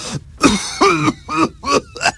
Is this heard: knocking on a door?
no